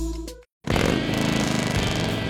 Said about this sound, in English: There's nothing like the sound of a Harley and the feel of the open road, and knowing the bike beneath you is yours.